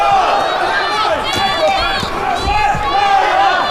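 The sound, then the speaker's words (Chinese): A fan club cheers on its player at a live match, with many voices shouting and chanting together in rising and falling cries over a loud, continuous crowd roar. “现场也有朱帅的粉丝团啊，在为朱帅加油助威。”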